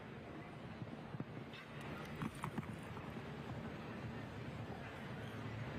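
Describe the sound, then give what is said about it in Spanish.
Hoofbeats of a horse galloping toward the first obstacle of the second round of a show-jumping competition on Paseo de Gracia, a few muffled thuds set under a steady, broad wash of background noise. “Allá iba el alemán, galopando a por el primer obstáculo de esta segunda vuelta.”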